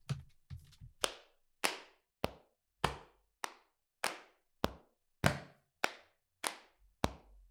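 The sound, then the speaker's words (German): Body percussion processed with a Shaperbox plugin: a few soft quick hits open, then sharp claps and slaps land in a steady rhythm roughly every 0.6 seconds, each cutting off quickly. “Dann haben wir jetzt noch zwei Instrumente. Die Body Percussion. Da habe ich jetzt auch wieder die Shaperbox drauf.”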